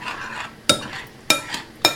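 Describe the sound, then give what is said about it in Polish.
Natural yogurt is gently stirred into a sauce. Three sharp clinks of a utensil against the pot ring out, with softer scraping and stirring noise between them. “Dodam jeszcze tylko jogurt naturalny, tak jak już wspominałam, 2 trzecie i delikatnie sobie mieszam.”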